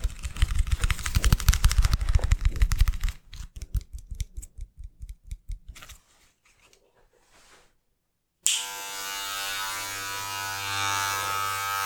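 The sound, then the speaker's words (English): An electric razor with a fitted attachment cuts a person's hair. Rapid, crisp, rhythmic cutting bursts come in two runs, then a short near-silent pause, then a steady, even, buzzing motor hum. “I'll just attach it to the razor, and then I can begin cutting your hair.”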